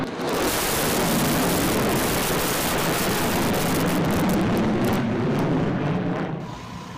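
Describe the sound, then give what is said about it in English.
A bomber aircraft flies over during a ceremony, producing a broad, heavy roar that swells in quickly, holds loud and steady, then begins to fade away at the end. “Despite the emphasis on harmony, a bomber's flyover during the ceremony caused an unscripted moment.”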